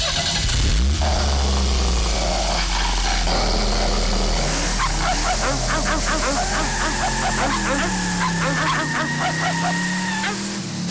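A car engine starts and settles into a steady low rumble while nearby dogs bark in rapid bursts and let out drawn-out howls over the running motor.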